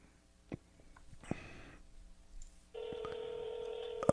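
Telephone tones while calling someone: faint rustling and a couple of soft knocks, then a steady electronic phone tone starts partway through and holds unbroken to the end.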